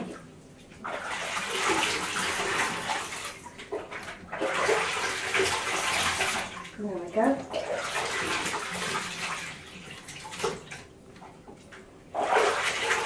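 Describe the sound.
Water poured over a child's hair in a bath, heard as a few long, loud gushing pours with splashing, separated by brief pauses.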